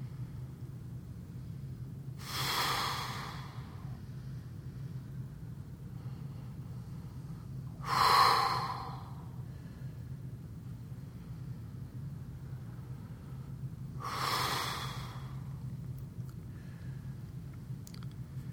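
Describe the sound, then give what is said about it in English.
Three deep breaths, each ending in a forceful, breathy exhale, come at roughly even intervals of about six seconds over a steady low rumble. “Take 3 deep breaths, and with each, imagine you are exhaling with intensity out your eyes.”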